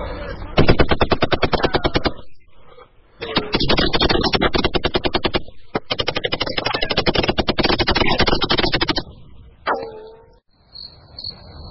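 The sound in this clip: Automatic gunfire from police shooting at armed smugglers: several long, loud bursts of rapid shots separated by short pauses, ending in a few scattered sounds before it falls quiet.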